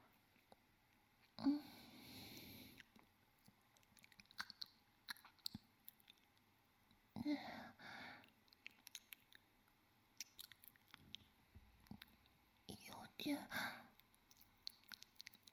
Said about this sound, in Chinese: 稍微有一点点脏吧。那我就只舔一下哦。我试试看吧。